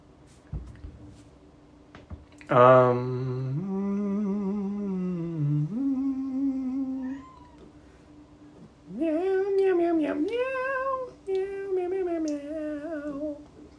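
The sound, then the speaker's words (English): A female cat meows several times: long, drawn-out, tonal calls in two bursts separated by a short pause. The later calls are higher and more whiny. No voices. “What a good meow. She makes different noises.”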